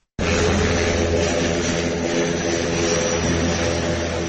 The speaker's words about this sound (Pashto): د اریانا د هوایی شرکت دا وړوکی الوتکه کله چې د لشکرګاه پر اسمان راښکاره سوه